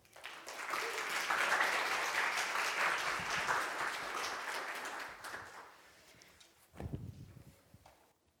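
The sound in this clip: Audience applause welcoming a speaker at a Palm Sunday church service, with sustained even clapping for about five seconds that gradually fades, followed by a brief low thump.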